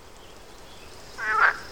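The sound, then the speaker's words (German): A single short croak from a frog sitting among garden flowers, rising briefly out of a faint, quiet background near the end. “zwischen deinen Blumen sitzt ja ein Frosch. Ja, ein richtig schöner Wetterfrosch.”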